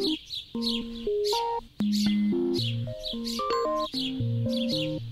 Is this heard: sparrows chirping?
yes